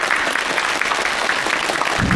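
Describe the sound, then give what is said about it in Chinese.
Warm audience applause rises at the close of a talk on calligraphy, many hands clapping in a loud, dense, unbroken stream throughout. “让我们再一次把热烈的掌声送给蔡福全老师”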